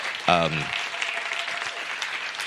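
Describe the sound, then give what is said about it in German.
Audience applause at a school conference talk: steady, even clapping from many hands. A brief voice is heard at the start, and the clapping continues at a moderate level throughout. “also ihr dürft gerne klatschen”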